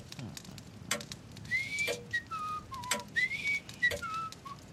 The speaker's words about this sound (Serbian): Ne zviždim ja. Nemoj mi reći da u ovom satu sve fame zvižde. Pogledaj, to je satna ptica. Mi smo u zidnom satu.